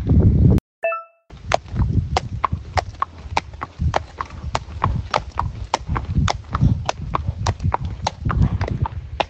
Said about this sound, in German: Ihr hört jetzt viele Hintergrundgeräusche. Wir sind jetzt in der Reithalle.